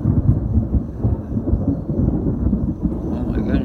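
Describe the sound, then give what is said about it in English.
Thunder rolls as a loud, deep, continuous rumble that swells and eases slightly throughout and is heard alone. “Thunder. Yeah, the thunder.”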